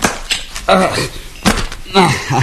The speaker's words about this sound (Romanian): Acum s-a închis. Asta e din ultimul container.